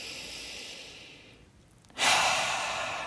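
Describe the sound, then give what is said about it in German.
Deep breathing during a guided relaxation pause: a long, airy breath tapers into a short hush, followed by a loud, full exhale. “dir wieder einen ganz kurzen Moment zu gönnen, in dem du innehältst und erstmal über 3 tiefe Atemzüge da ankommst, wo du gerade bist.”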